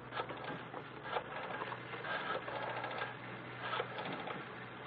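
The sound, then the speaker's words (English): A tape recording machine starts running with a faint, steady mechanical whirring and light rattling, broken by a few soft clicks. “Very well. I will start the machine.”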